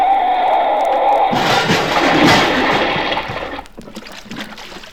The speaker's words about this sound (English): You're heading right for that water trough. I can't stop, Ollie. We're going to hit it.